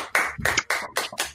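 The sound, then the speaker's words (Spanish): Applause greeting a guest, heard as several short, loud surges of clapping noise separated by brief gaps, with no talk. “Aplauso. Aplauso de gol.”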